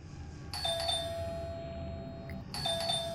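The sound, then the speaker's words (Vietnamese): An electronic doorbell rings twice, each ring a bright sustained tone. A quiet hiss lies underneath, and there is a short gap between the two rings. “Bỗng nhiên tiếng chuông cửa làm cho Thủy giật bắn mình, và cả Quang cũng thế.”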